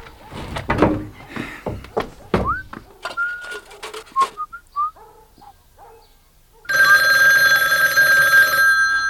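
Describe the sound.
A telephone bell rings loudly and continuously through the final seconds, after a quieter stretch of brief voices and whistle-like gliding tones.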